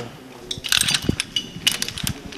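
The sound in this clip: A rescue descender pays out rope as a person is lowered during a rescue manoeuvre, giving brief irregular ratcheting clicks and metallic mechanical rattles.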